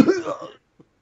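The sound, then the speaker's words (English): A single harsh, throaty cough bursting out loudly for about half a second and then dying away, followed after a pause by a faint short sound. “I'm sorry that the mere mention of the transition to Cynthia like elicits such a coughing fit in you.”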